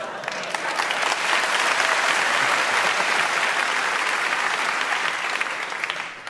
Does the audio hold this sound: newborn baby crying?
no